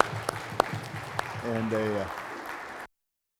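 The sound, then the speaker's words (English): Applause from a church audience congratulating a family on a newborn girl: a steady wash of clapping that rises quickly, holds for a couple of seconds, then cuts off abruptly. “Let's give them a hand”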